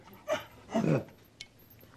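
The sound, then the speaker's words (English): A dog gives two short, breathy vocal sounds, the second longer and lower, with a faint click after them. The sounds are quiet. “I'm talking to a dog. That bothers me.”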